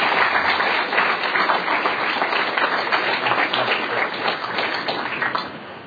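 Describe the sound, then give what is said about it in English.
Applause welcoming an award presenter at a Texas fisheries meeting: a loud, dense, steady wash of clapping from many people that eases slightly at the end. “And so let's give Jason a big warm welcome to Texas.”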